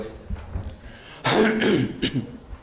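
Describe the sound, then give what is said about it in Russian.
A man who has been talking a lot clears his throat and stifles a cough, with a rough, raspy burst and a shorter second one after it. “Я чуть не закашлялся. Много говорил еще сегодня.”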